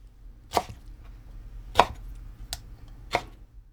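A knife chops mustard green leaves on a chopping board in four sharp, crisp strokes at uneven intervals, with no talk.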